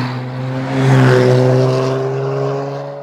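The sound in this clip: Motor traffic passes along a cut-through road in Malta. A steady, fairly loud low engine hum with droning tones swells near the first second, then eases slightly and carries on without any talk.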